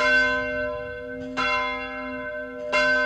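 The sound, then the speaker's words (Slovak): A large church bell in a tower tolls three evenly spaced strokes. Each bright, clanging strike rings out in a long, rich hum that carries into the next. “Niekedy si predstavujem, že bude zvoniť ako veľký kostolný zvon na veži a že všetkých ľudí zobudí.”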